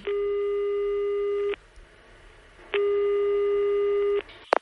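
An outgoing telephone call's ringback tone sounds as two long, steady electronic tones separated by a short silence, followed by a brief click at the end.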